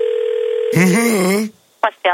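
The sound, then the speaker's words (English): A telephone being dialed: a steady dial tone hums alone, a voice speaks briefly, and then two short ringing bursts follow in quick succession. “Go ahead and dial the Bilderberg.”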